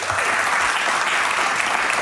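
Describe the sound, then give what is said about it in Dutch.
Audience applause greets a guest at a live show in Alkmaar: dense, loud, steady clapping that fills the whole stretch without pause or fade, with no voices rising above it. “Een warm en parmantig applaus voor niemand minder dan Karin Bloemen.”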